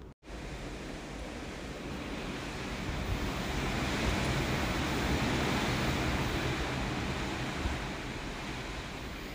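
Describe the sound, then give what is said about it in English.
Ocean waves rushing past a cruise ship under way at sea in the morning: a steady, broad wash of water noise that swells slightly in the middle and continues without a break to the end. “Do you hear that? That is the sound of the ocean as we are cruising along.”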